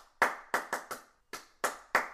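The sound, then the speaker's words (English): Bare hands clap eight times in an uneven rhythm, the claps grouped in short bursts with brief pauses between them, each one a sharp, fairly loud slap heard on its own with no talking. “Think that I'm crazy, but I keep clapping all the time.”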